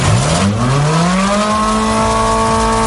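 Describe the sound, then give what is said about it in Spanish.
Ferrari Roma sports car engine accelerating hard, its loud continuous note climbing steadily in pitch through the first part, then holding a high, even howl to the end. “Suena bien, ¿eh? Es el Ferrari Roma. Es el más normalito, por decirlo de algún modo.”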